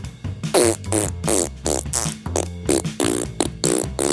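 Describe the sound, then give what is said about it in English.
A voice imitates a T-Rex fart with a long run of loud, low, blubbering bursts, each one rough and buzzing, pausing briefly between them. “This is how I think a T-Rex fart sounds like.”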